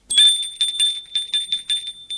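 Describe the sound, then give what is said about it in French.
A doorbell rings at a family's front door: a fast train of bright, high metallic strikes over a sustained ringing tone that lasts the whole clip, loud and with no voices. “Gilles sonne chez les Danteuil.”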